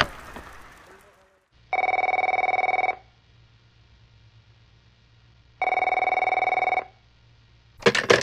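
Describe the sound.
An unanswered telephone ringing, heard as two long, steady electronic rings separated by a silent gap, with brief noises at the start and end.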